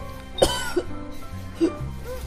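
Loud coughing from a woman choking on something stuck in her throat: one sharp, forceful cough followed by a few weaker coughs over a steady background.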